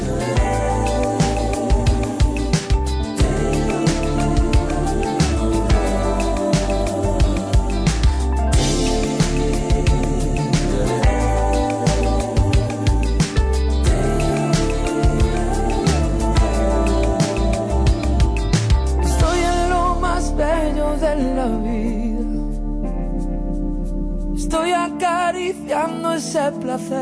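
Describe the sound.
A pop song from a singer-songwriter's latest album plays loud and continuous with a full band, drums and bass. It thins out near the end.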